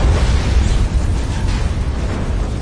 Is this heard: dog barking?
no